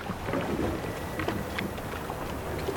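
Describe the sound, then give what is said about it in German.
A motorboat sets off from a harbour with a steady, low rumbling engine drone blended with broad wind-like, watery noise, holding a constant level throughout with no voices. “Da hinten beim Hafen ist gerade ein Motorboot losgefahren. Es kommt in unsere Richtung.”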